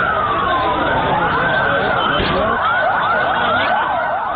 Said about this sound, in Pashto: دا د هغو امبولانسونو غږ دی چې په لاهور کې له قوي چاودنې وروسته د پیښې له ځایه مړي او ټپیان انتقالول.